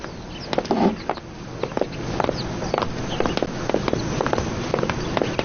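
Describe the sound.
Two people walk out with many light, irregular footsteps, each a short tap over a low, steady background hiss.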